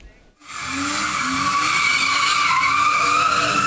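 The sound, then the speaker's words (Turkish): Tires squeal as a car drifts on a street in Ankara's Keçiören district: a loud, sustained, high-pitched screech over engine drone that starts after a brief quiet moment and continues unbroken. “Ankara'da bir otomobil sürücüsü aracıyla drift yapmaya başladı.”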